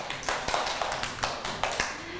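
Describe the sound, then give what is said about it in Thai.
Applause with hands clapping, given for a child at a children's news and breakfast-sharing session. Brief and irregular, with several sharp bursts of claps spaced through the short clip at a moderate, steady level. “ปรบมือให้มากี้หน่อยค่ะ”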